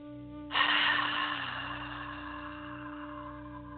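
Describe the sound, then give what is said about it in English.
A deep cleansing breath, a soft airy rush that swells suddenly and then slowly fades, heard faintly over sustained, gentle music. “just start by closing your eyes and take a deep cleansing breath.”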